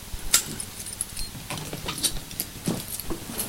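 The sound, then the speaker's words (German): Keys jangle with light metallic clinks as a suitcase is unlocked and its lid opened, a few faint, scattered rattles and taps spread over a few seconds. “Bitte öffnen Sie den Deckel. Hier ist der Schlüssel.”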